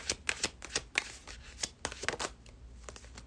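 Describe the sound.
Tarot cards are shuffled before a card is drawn, giving many quick, crisp flicks and soft riffles in an uneven rhythm, all faint and close.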